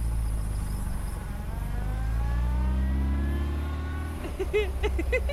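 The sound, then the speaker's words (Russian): A car drives off and comes back, its engine droning loudly and revving with shifting pitch throughout, with no voices. “Девушка опять уезжает и возвращается.”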